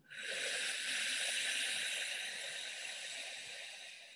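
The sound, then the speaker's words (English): A long inhale through the mouth during a breathing exercise: a steady airy hiss lasting about four seconds that slowly eases toward the end. “Inhale through the mouth.”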